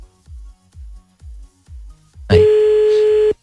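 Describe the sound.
Telephone line tones while a call is being placed: a regular series of low, soft pulses, then a loud, steady single-pitch tone that holds for about a second before cutting off abruptly.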